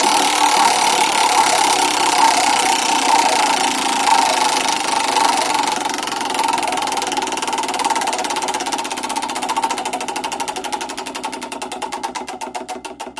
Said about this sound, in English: So let's now spin the wheel of reviews.